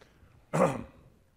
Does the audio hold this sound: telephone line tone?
no